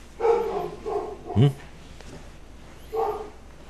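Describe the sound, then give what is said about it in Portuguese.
A small female dog barking indoors, a few high, sharp yaps spaced apart with quiet stretches between them. “A cachorrinha está latindo aqui. Ela estava latindo para alguma coisa lá fora ou aqui dentro?”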